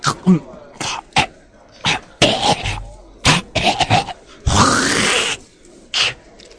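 A person coughs and chokes after swallowing wrong: a series of harsh, irregular coughs and splutters, with one longer rasping hack partway through, loud and close.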